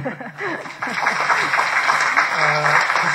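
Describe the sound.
Audience applause at a history lecture on the 1969 Zhenbao Island incident: a brief voice, then steady, dense clapping that runs to the end, with a voice speaking over it near the end.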